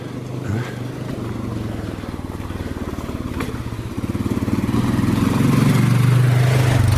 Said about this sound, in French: Voilà, c'est un quad.